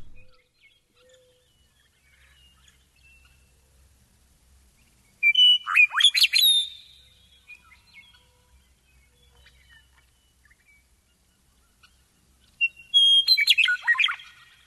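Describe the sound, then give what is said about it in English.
A Western Meadowlark sings in Central California, with two bright, fluty song phrases separated by a long stretch of near silence. Each phrase is a short burst of clear whistled notes. “Here's the Western Meadowlark from Central California.”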